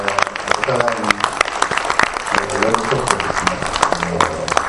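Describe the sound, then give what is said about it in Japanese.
Audience applause for the three guests of the day at the close of a public event: dense, uneven clapping throughout, with voices talking over it. “それでは改めて今日のゲストの3人の方に、拍手をありがとうございました。”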